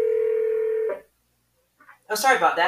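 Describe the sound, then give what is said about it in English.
A phone keypad tone sounds as someone presses the buttons on a phone: one steady, sustained beep lasting nearly a second, then a short silence before a voice starts talking. “Sorry about that, y'all. I was playing with the phone.”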